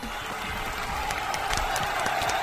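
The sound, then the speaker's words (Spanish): Applause, a person clapping for themselves: dense, continuous clapping at an even level that fills the whole moment without pause. “Hasta yo me aplaudo, ¿por qué no?”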